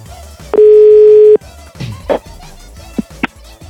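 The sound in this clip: A telephone dial tone holds steady and loud for under a second as a call is placed, followed by a few short clicks and blips from the line.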